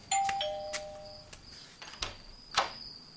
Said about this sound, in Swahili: Na ghafla kengele ya mlangoni inalia.